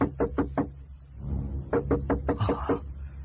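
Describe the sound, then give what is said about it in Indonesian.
Knocking on a door at midnight: two bursts of quick, sharp raps, about four in the first and about six in the second, separated by a short pause, with a low hum underneath. “Siapa lagi yang mengetuk pintu tengah malam begini? Nenek dan kakek bisa terbangun.”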